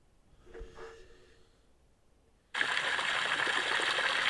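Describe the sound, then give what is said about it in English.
A water fountain splashing, with water hitting water: faint, scattered sounds at first, then an abrupt onset of loud, steady, even rushing that continues to the end. “It's a fountain.”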